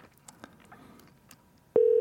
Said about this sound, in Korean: 바로 저희가 연결합니다. 걸어봅니다.